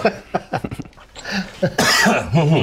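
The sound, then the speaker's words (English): Coughing from something caught in the throat: a short run of harsh, rough coughs and throat-clearing bursts, ending in a louder, longer hacking stretch. “excuse me, something seems to be in my throat.”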